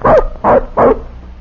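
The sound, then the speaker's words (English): A young puppy, a tracking dog not yet grown, gives three sharp barks in an even rhythm, fairly loud with no other sound. “Say, this dog don't look big enough to travel with a pack. He's still a puppy.”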